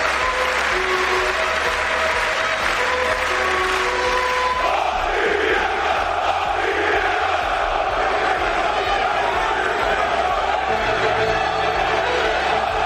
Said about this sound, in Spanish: Se juega el Olympiacos Real Madrid a las 8, con el retorno que estáis escuchando de la afición griega a la grada, que tendrán unas ganas que podemos imaginar.